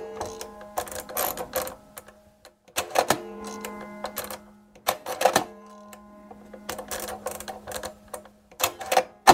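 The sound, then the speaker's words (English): Mechanical clacking and ratcheting of an early hand-crank encryption machine, of the kind the United States used in World War II, as it encodes a message. Bursts of sharp key strikes and gear clicks come between short pauses over a low steady hum. “That is the sound of one of the early primitive encryption machines that countries used, in fact, the United States used in World War II.”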